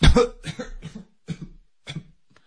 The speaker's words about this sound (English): said the rocket, and he began to cough.